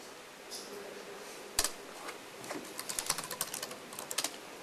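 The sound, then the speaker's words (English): Typing a commit message on a computer keyboard: a single sharp keystroke, then quick bursts of many clicking keys in an uneven rhythm. “Now I type in a commit message”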